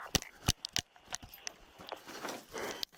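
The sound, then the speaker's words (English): Gunshots ring out during a police shooting incident, with a few sharp, fairly quiet cracks close together near the start and fainter sharp clicks scattered later. “4108, shots fired again.”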